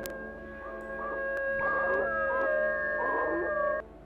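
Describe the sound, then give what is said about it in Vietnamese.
A dog howls in the night with a long, drawn-out tonal cry that wavers and warbles. It holds steadily through nearly the whole clip and then cuts off near the end. “Bất ngờ từ đâu tiếng chó tru lên văng vẳng trong đêm.”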